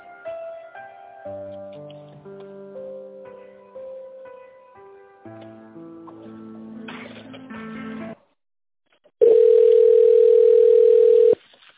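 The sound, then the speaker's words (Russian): A telephone ringback tone plays while a caller waits to be connected to a company secretary. A short synthesized tune comes first, then a brief silence, then one steady, loud, mid-pitched tone lasting about two seconds. “Для соединения с секретарем оставайтесь на линии.”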